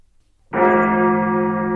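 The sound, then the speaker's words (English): An old church bell is struck once after a moment of silence, and its bright metallic tone rings on with steady, sustained overtones. “What on earth is that? It's that old church bell”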